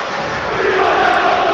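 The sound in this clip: Roughly 700 Cagliari football fans in the away section cheer and chant after an important victory, a dense, sustained roar that swells slightly toward the end.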